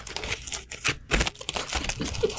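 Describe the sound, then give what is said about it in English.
A big burrito is unwrapped for a live taste test: a quick flurry of irregular crinkling and crackling as the wrapper is pulled open. “This is a big burrito. And this is the first burrito. You don't know where it's from. Okay. Just live taste test it. Okay. I'm going to unwrap it.”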